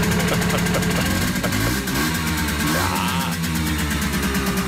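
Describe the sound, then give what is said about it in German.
A car engine revs as gas is given, a loud continuous rumble with a couple of swells in pitch, blended with other dense sound throughout. “Oh, ein bisschen Gas geben, ne?”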